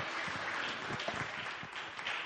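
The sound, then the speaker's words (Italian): An audience applauds a group of young women at a school event. The clapping is fairly faint and continuous, with a few sharper individual claps standing out from the steady patter. “Quindi signori, un bel applauso a queste signorine che si sono già organizzate per essere globetrotter nel mondo.”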